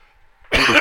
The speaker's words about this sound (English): I've been coughing, and it's just the way it is. When I start to speak a lot, that happens.